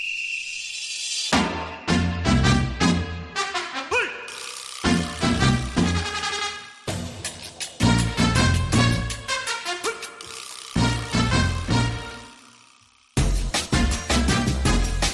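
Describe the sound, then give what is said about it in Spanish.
An upbeat jingle introducing a segment with a technology and privacy lawyer: rhythmic music with punchy beats and bright tones, broken by short pauses, then a fresh loud burst after a gap near the end. “Cada vez que suena esta música en este espacio, quiere decir que ya al otro lado del hilo telefónico se encuentra nuestro abogado experto en asuntos tecnológicos de privacidad global”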